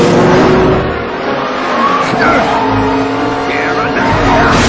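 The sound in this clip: Race cars racing near the end of the animated movie Cars, with engines roaring and tires skidding and squealing as voices talk over the action.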